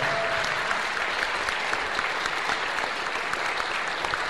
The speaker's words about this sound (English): And look at that, sir, standing ovation for you.